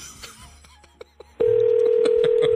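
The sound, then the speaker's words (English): A telephone number being dialed: a few faint, short key tones and clicks, then a sudden loud, steady single-pitch telephone tone that holds to the end. “We're going to dial it.”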